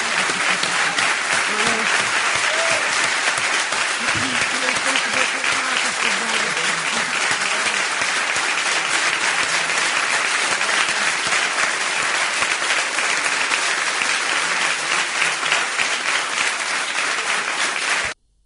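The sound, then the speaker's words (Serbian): Loud, dense applause from an audience after a live poetry reading, a steady wash of many hands clapping that holds evenly for about eighteen seconds and then cuts off abruptly. “Ja vas molim jedan veliki aplauz.”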